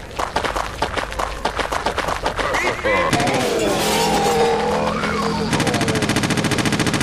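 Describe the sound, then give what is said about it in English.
Machine gun fire in a video game comes as a rapid burst of many loud, evenly spaced shots. It gives way to a denser, continuous noise and then a steady buzzing texture. “Machine gun. Let's show you the machine gun.”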